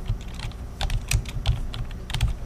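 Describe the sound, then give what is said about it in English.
Computer keyboard keys clatter as keywords are typed in, many quick, irregular clicks at a brisk pace, with no voices. “Type the keywords for the new issue.”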